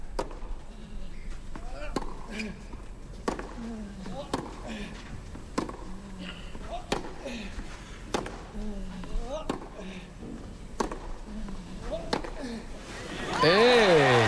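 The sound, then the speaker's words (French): Tennis balls struck by rackets in a professional match between Djokovic and Casper Ruud: many sharp pops arrive at a steady back-and-forth rhythm about a second apart. Faint squeaks and background crowd noise sit between the hits. “Écoutons le son des balles qui sortent de ses raquettes.”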